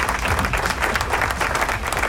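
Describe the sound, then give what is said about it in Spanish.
Applause from a crowd at a rock concert, a dense, steady, loud wash of clapping with no breaks from start to finish. “¡Aplauso!”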